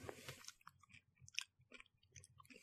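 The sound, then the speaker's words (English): Crunchy chewing of M&M's candy, a steady run of many small crisp bites and grinding crunches, faint and close, with no talk over it. “Eat your M&M's on mic. People get to hear you fucking eating. This isn't an ASMR video.”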